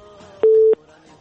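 A telephone busy tone after a dropped call: one steady, mid-pitched beep, loud and short, rising clearly above a faint background hum.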